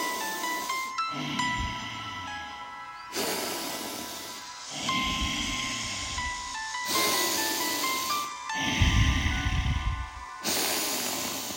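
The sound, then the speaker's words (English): Slow, deliberate breathing in and out through the nose, with long airy hissing inhales and exhales alternating several times over soft sustained tones underneath. “start to inhale through the nose and exhale through the nose”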